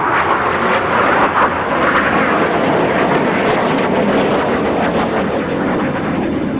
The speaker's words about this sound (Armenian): Հեղաշրջման դավադիրների վերահսկողության տակ գտնվող F-16 ինքնաթիռները սկսել էին ցածր թռչել Անկարայի վրայով, կարծես թե հանրությանը վախեցնելու համար։